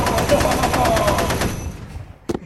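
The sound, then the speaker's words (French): A huge machine gun fires a loud, fast, evenly spaced stream of shots for about a second and a half, then cuts off. A couple of short sharp knocks follow near the end. “c'est surtout l'énorme mitrailleuse qui nous a sauvés”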